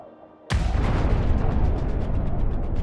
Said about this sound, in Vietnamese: Tiếng nổ lớn làm chấn động cả núi Cai Kinh.